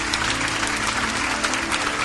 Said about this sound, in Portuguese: Vamos aplaudir mais o Senhor Jesus.